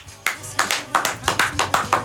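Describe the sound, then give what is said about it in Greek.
Rhythmic clapping from a studio audience in a Greek talk show: many sharp, evenly spaced claps in a steady beat, fairly loud, following a brief pause at the start. “Χειροκροτήστε μας.”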